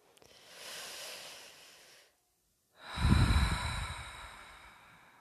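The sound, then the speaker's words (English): People take a deep breath together: a soft, airy inhale lasts about two seconds, then a brief silence, then a louder, forceful exhale that trails off slowly. “We're going to take three breaths together.”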